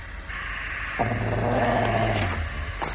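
Low, steady growl of a hunting dog in snowy woods, one rumbling snarl lasting about a second and a half over a soft background hiss, with no voices.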